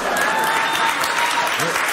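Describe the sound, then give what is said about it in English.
Loud applause from a talk show studio audience, a dense burst of clapping that continues evenly for a couple of seconds. “oh, my fucking audience. Why do they clap everything?”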